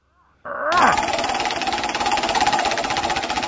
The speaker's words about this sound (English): Spin it anyway, because I like to have the sound effect. You know, the wheel's still broken, but okay, I'll give it a try.